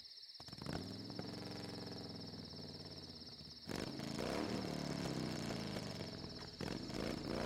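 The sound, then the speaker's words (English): A Harley motorcycle rides at night on an empty highway, its engine a steady, dense drone with a constant high whine above it. The drone grows noticeably louder and rougher partway through and holds there to the end. “Sartaj was riding through the balmy night on his Harley, enjoying the solitude and the sight of the shimmering stars in the heavens.”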